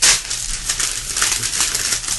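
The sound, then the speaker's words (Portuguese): Paper tearing as a letter is ripped up. A loud, steady crackling rip runs for about two seconds with uneven bursts of texture and no voices. “O senhor está rasgando a carta?”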